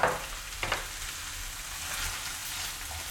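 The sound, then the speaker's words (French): Rice stirred in a frying pan, with a steady soft sizzle and a few scraping clatters near the start, and no voices. “Je vais ajouter mon riz. Voilà, pour 2-3 personnes, je mets un verre de riz. Voilà, que je mélange.”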